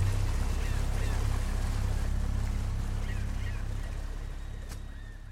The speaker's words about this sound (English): They run on to the Contessa 2 and push it full throttle towards the North Pole.